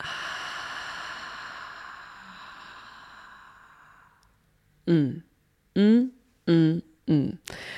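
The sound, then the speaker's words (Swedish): A long, slow breath released through the mouth makes steady, breathy noise that fades over about four seconds, then after a short pause a voice begins speaking. “Så tar vi ett djupt andetag in genom näsan. Fyller upp bröstkorgen och magen med ny luft och ny energi. Och släpper ut andetaget långsamt genom munnen.”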